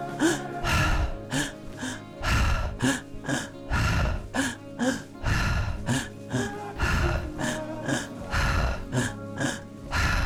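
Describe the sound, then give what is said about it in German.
Rhythmic breathing exercise: a person draws one breath into the belly, another into the chest, then releases it. The cycle repeats many times with audible, gasping inhales and breathy exhales in an even pattern. “Die Technik funktioniert so, wir atmen eine Sekunde in den Bauch, eine Sekunde in die Brust und dann lassen wir den Atem. Das hört sich ungefähr so an.”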